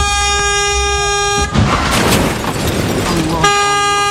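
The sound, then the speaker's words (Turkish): Vehicle horns blare in warning as an empty pickup van rolls into cars. A loud, steady honk breaks into a burst of broad, noisy commotion, then the sustained horn returns. “Çevredekiler bağırarak ve korna çalarak vatandaşları uyardı.”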